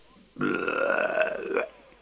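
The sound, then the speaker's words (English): A single long, loud belch, rough and voiced, holding steady for over a second before it stops abruptly, heard alone during a sung Scots ballad. “and he finished off the chanty pot, then he belched,”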